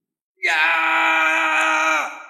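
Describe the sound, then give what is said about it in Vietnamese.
A terrified scream, one sustained wailing cry lasting under two seconds. It is loud and steady, then drops in pitch and trails off at the end. “Nguyên thần Ngao Thịnh hét lên, vô cùng hoảng sợ”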